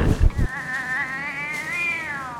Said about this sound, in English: I'll be Dermot Mulroney'd if it isn't our old feline friend, Colonel Gravy, the paraplegic sports cat